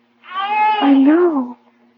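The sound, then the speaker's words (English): A baby cries in a hand-carved crib, a single wavering wail of about a second and a half whose pitch bends up and then down, over a steady low hum. “A baby crying right here in this crib.”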